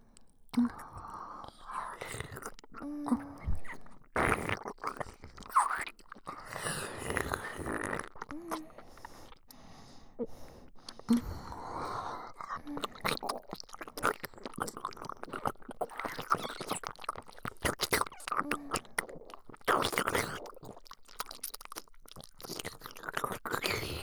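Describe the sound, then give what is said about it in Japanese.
Two people eating together, with many crisp, irregular crunches and munching bites throughout, under soft whispering voices. “それじゃあ二人で一緒に。 いただきます。”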